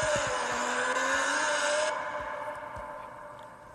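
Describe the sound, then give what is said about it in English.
Formula 1-style race cars in a racing video game accelerate toward turn one, a dense engine roar with a slowly climbing tone that eases off and grows quieter after about two seconds. “And the green flag is gonna go back in the air. As they begin to accelerate towards turn one.”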